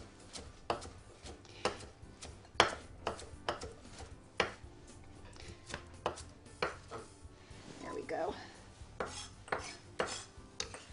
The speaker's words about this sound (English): This is a beautiful young baby kale, so I don't need to do that. So I'm going to give it a rough chop and get it into the saute pan, which is nicely heating, just to wilt it a little bit.